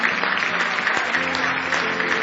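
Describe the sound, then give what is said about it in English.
A church audience gives a big hand clap of praise, a loud, dense, continuous wash of clapping that holds steady from start to finish. “Now give him another big hand clap of praise.”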